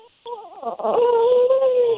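A baby cries in one long wail that wavers in pitch at first, then holds a steady, fairly loud tone before breaking off.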